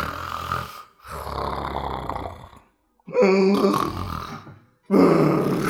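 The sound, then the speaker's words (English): A voice imitates loud snoring, as of a priest asleep in a church pew. Several long, rasping, throaty snores follow one another, separated by short pauses. “And there's one priest loudly snoring in one of the pews.”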